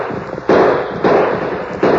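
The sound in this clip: Gunshots fired to drive off attackers: three sharp, loud shots spaced well apart, each leaving a bright, ringing burst of noise over a steady rough background.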